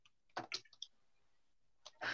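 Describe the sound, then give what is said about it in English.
Quiet keyboard typing in the dark comes as a short burst of soft clicks, then a near-silent gap, then another cluster of taps at the end. “typing in the dark is hard.”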